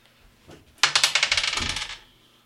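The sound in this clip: Dice rolled for an attack roll during a Dungeons & Dragons playtest session: a light tap, then a sharp clatter of many quick bounces that rattle and settle within about a second.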